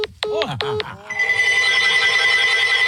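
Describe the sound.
Telephone ringing, heard as a couple of short warbling ring bursts followed by a steady, sustained electronic tone, fairly loud and clear.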